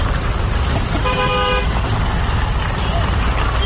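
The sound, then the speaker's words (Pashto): Cars and horns at a busy intercity car station in Kandahar where vehicles leave for Kabul. A steady roar of engines and traffic runs throughout, broken by a single short, bright honk. “دا په کندهار کې د کابل موټرونو اډه د چیل لدی ځای هر ورځ زرګونه مسافر په کوچنی او غټو موټرونو کې کابل ته تګ راتګ کوي.”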